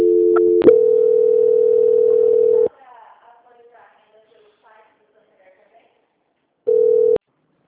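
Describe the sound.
Telephone tones while a call is transferred: a brief two-pitch beep, then a steady mid-pitched tone lasting about two seconds. A quiet stretch follows with faint voice traces, then one short burst of the same tone.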